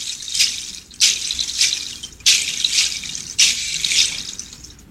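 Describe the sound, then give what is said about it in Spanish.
Seeds shaken as a percussion instrument give a hissy, granular rattle in repeating bursts, with a strong accented shake about every second and softer swishes between. “Así suenan mis semillas.”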